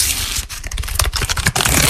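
Trading cards rustle and crackle in a dense run of dry, papery scratches and flicks that continue without pause for about two seconds, with no voices.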